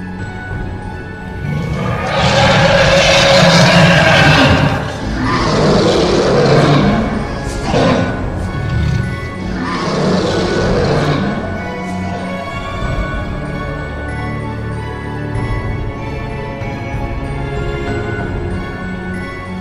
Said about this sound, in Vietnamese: Một hư ảnh bạch hổ ngửa mặt lên trời mà gầm thét đầy uy phong.